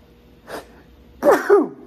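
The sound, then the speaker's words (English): A human sneeze: a short, faint burst of breath, then one loud, sharp sneeze with a falling tail, heard alone with no talking. “I'll see if I can edit that out, but if I can't, I apologize. You guys just got sneezed on.”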